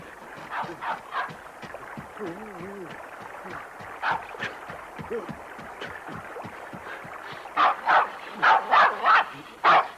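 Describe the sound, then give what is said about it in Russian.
A dog barks and yips again and again, with whimpering in between, the barks growing louder and more tightly bunched near the end. “Через мостик убегает от собаки.”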